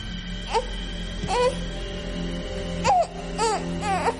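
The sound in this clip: A baby lying in a stork's nest set on a round table cries in several short, high, wavering whimpers with gaps between them, over a low steady hum.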